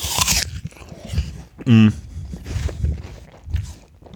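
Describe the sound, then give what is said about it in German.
A single loud, crisp crunch of teeth biting into an apple stands out sharply, with people talking before and after it. “ich esse einfach mal in Ruhe einen Apfel.”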